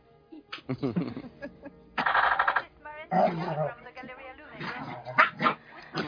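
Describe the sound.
Dogs bark in several irregular bursts with a few high yips mixed in, and voices are heard at times between the barks.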